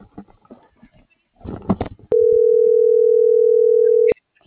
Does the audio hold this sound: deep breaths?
no